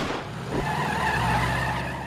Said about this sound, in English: They drive off.